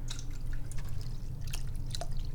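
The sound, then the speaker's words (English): Bottled water is poured into a cat's bowl, giving faint, irregular trickling and dripping splashes that come in small bursts over a quiet low hum. “then what we do is we pour.”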